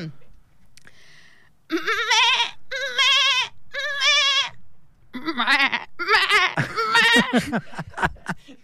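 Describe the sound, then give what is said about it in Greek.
A young goat bleats in three wavering, high-pitched cries, then a denser run of overlapping, quivering bleats follows. “Μικρό κατσικάκι.”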